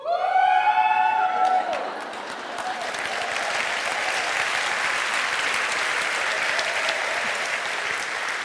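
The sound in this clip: An audience applauds at a speech event after being asked to shout. A loud raised voice opens, then sustained, dense clapping takes over and holds steadily to the end.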